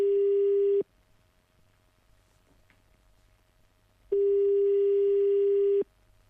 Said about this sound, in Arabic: عاود اتصل مرة أخرى